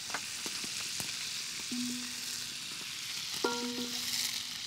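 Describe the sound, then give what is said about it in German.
Onions frying in butter in a pan, a steady bright sizzle throughout, with a couple of brief squeaky tonal scrapes partway through. “Jetzt kommen Zwiebeln. Oh, das riecht immer so fein, ja, gell? Zwiebeln in Butter gebraten”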